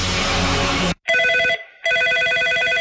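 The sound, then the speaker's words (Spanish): A telephone ringing with an incoming call on air: two bursts of bright electronic ringing separated by a short pause, following a loud burst of dense noise that cuts off abruptly. “Tenemos una llamada al aire.”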